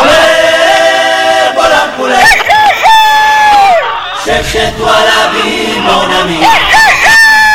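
Rooster crowing sound effect: several loud, shrill crows with rising and falling harmonic calls follow one another over a dense, crowd-like background.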